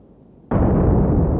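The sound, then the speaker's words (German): An explosive charge set off at the ground surface for a seismic survey of deep earth layers: after a quiet moment, one sudden, loud, deep blast bursts out and rumbles on steadily to the end. “An der Oberfläche verursacht er eine Explosion und registriert,”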